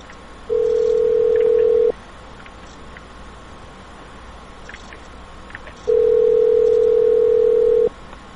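Telephone line tones while calling someone: two long, steady, mid-pitched tones, each lasting a couple of seconds, separated by a quiet gap of several seconds with faint background noise.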